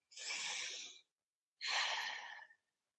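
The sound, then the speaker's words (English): A deep breath taken during a guided healing affirmation exercise: one slow, soft inhale, a short pause, then a long exhale, heard alone. “So we want you to kind of take a nice deep breath”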